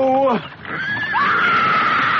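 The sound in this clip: A pony gives a short, descending neigh, followed by a sustained high tone.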